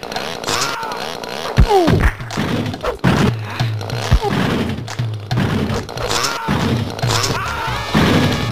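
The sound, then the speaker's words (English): Fighting video game combat set in space, in which a character's arm is cut off: several heavy thuds, thwacks and smashing impacts strike at irregular moments over a busy, continuous game soundscape. “So Time Splitter over time. This is how fighting games should be, honestly. So Orion just got an arm cut off. He's still going.”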